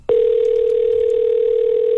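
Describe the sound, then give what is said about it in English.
A steady telephone dial tone on the line before a radio contest winner is called: one loud, unbroken tone that starts abruptly after a brief quiet moment and holds unchanged. “And it's time to get to the phone lines and call a winner.”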